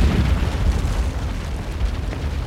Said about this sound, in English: It's packed with plastic explosives and shrapnel. At 1:45 a.m., as the club is in full swing, the 2-kilogram bomb explodes.